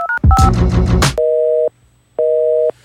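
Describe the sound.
A telephone busy signal on a failed call: two long, steady, loud tones separated by a gap of silence, preceded by a couple of short dialing beeps and a brief burst of harsh tones.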